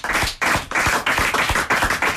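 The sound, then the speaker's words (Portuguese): A round of applause rendered as loud, rhythmic group clapping, with the hands striking together in a regular pulsing beat that stays strong throughout. “Muito obrigado também a Alexandre Silva, para quem eu vou pedir uma salva de palmas.”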